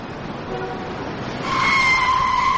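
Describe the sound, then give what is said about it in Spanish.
A grey car speeds the wrong way down Madrid's Gran Vía in a Spanish drama film. Traffic noise rumbles steadily before a louder, whining engine tone surges in and holds. “Un coche gris irrumpe a toda velocidad en la Gran Vía de Madrid y circula en dirección contraria. El resto de vehículos trata de esquivarlo.”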